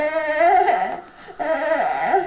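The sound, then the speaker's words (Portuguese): A small child cries in two wailing phrases separated by a short breath, the voice high and strained with wavering, sliding pitch. “A mãe vai fazer, mas paras de chorar. Já paraste?”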